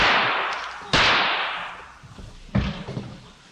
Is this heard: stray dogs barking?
no